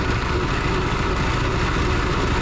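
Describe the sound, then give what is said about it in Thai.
A rotating machine with an inner pipe spins to shake fish out of fishing nets, giving a steady, loud, low mechanical drone with a constant rumble and no talk. “ตัวเครื่องเนี่ยมันจะหมุนนะครับโดยข้างในมันจะเป็นท่อนะครับแล้วมันก็จะตามแรงของเครื่องนะครับเพื่อจะสะบัดให้ปลาออกจากตัวอวนนี้ไปนะครับ”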